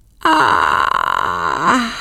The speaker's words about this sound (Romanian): Micul Johnny a căscat lung.